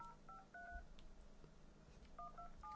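Telephone dialing tones as someone calls a friend: a few short electronic beeps in one quick burst, a pause, then another run of beeps, all faint.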